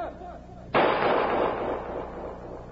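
A single gunshot fired at FBI agents during a nighttime standoff with an armed suspect: a sudden loud crack that breaks into a long, noisy, slowly fading tail.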